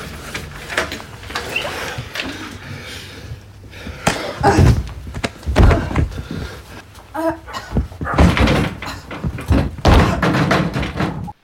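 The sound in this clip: Door slamming: a busy run of heavy thumps and knocks with some clatter and faint voices in between.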